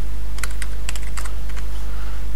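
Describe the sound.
Keys clatter on a computer keyboard as code is typed, short clusters of sharp clicks with small gaps between them, over a loud, steady low hum.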